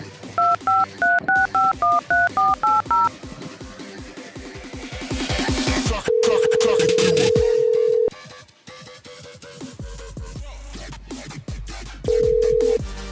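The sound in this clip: Touch-tone dialing of a phone number: a rapid string of short key beeps, followed by long, steady ringing tones that repeat after a pause as the call connects.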